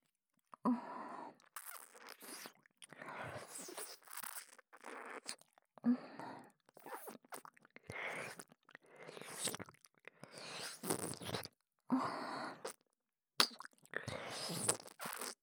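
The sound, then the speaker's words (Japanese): Soft, wet licking behind an ear, heard as many quiet smacking and slurping bursts separated by short silences, with faint crunchy mouth clicks. “耳の裏も舐めてみていいかしら。”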